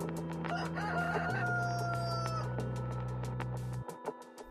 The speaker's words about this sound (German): ob auch der Hahn vom Tonband kommt. Obwohl es stockdunkel ist, kräht er mit voller Inbrunst.